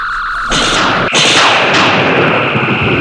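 Weapons fire as loud, sustained electronic blasts with whining tones layered over a rushing roar. The blasts surge in at about half a second and again shortly after, and one tone slides downward. The firing continues steadily to the end.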